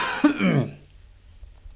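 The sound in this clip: A person clears a scratchy, itchy throat with one loud, rough, gravelly hack lasting under a second. Near silence follows, with only faint low rumble.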